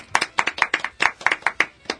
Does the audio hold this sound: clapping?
yes